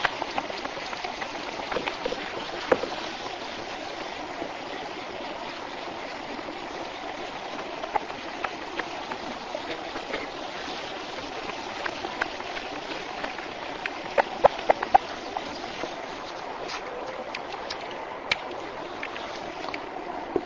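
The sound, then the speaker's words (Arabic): A dalia water wheel lifts water from a river, with steady splashing and rushing water and scattered drips and trickles. No voices are heard. “من دالية على النهر ويستخرج الماء، يستخرج الماء بواسطة هذه الدالية.”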